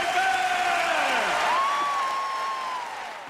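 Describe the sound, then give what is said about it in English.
Audience applause after a musical performance: a dense, steady clatter of many hands that thins slightly toward the end, with a few tonal lines gliding over it. “Give them an enormous applause for world-famous Australia”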